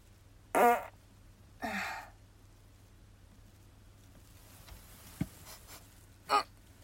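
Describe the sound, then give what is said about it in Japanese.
Farts: a few short, breathy bursts separated by quiet pauses, with one brief click between them, over a faint steady low hum. “おなら出します。”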